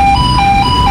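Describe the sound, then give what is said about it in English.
A loud, steady electronic tone with bright harmonics and a slight regular pulse sounds as a delivery truck passes through a giant Customs and Border Protection X-ray scanner screening World Cup deliveries to Atlanta Stadium. A dense low hum sits beneath the tone. “That sound is a delivery truck going through a giant X-ray scanner,”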